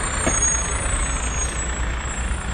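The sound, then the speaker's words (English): Street traffic on Victoria Drive, dominated by a heavy truck's loud, steady engine rumble that holds without a break, with no talk. “This is the sound of me recording a podcast walking down Victoria Drive.”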